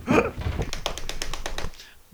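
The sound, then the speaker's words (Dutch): Knocking on a door: a quick, even run of many light raps lasting about a second, fairly faint, after a brief burst of noise. “Op de deur kloppen.”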